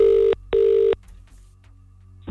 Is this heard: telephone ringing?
yes